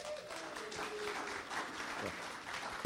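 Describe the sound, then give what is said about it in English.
An audience claps steadily to welcome a speaker to the stage, a dense, even wash of applause that holds for the whole stretch. “Let's welcome Mike. Give him a hand, will you?”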